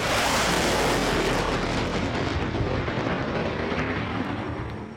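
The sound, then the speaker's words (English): A sonic boom from an SR-71 overflying Havana arrives as a loud, continuous roaring rumble across the whole stretch, heavy in the low end and easing slightly toward the end. “The sound of freedom, an ear-splitting sonic boom that would put the fear of God, or his nearest equivalent in the White House, into the hearts of America's enemies.”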